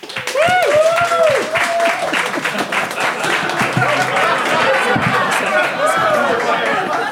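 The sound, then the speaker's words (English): A live studio audience in Phoenix applauds to cast a vote during a comedy panel show. The loud, dense clapping is mixed with excited chatter and whoops and lasts throughout. “So if you think Josh and Ben, and therefore Jamie, is in the right, I'd like you to applaud now.”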